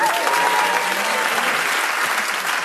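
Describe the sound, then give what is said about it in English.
Studio audience applause during a panel game show's final round, a dense, steady wash of clapping that holds at a loud, even level through the whole stretch. “I think you can keep your applause to the final end”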